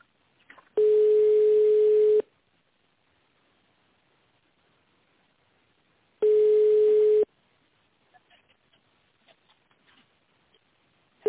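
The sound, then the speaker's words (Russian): Telephone ringback tone while a call is transferred to an internal extension: two long, steady, mid-pitched tones separated by a few seconds of silence, followed by faint scattered clicks. “Перевод звонка на внутренний номер 5015.”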